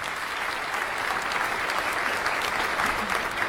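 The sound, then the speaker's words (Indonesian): Audience applause at a quiz contest after a correct answer: a continuous, even wash of many hands clapping that holds steady from start to finish. “Iya, tepuk tangan Bapak Ibu.”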